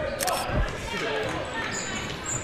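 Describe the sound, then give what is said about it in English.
A basketball is dribbled at midcourt during a game, its repeated bounces thudding beneath steady talking and background court noise. “dribbling at midcourt”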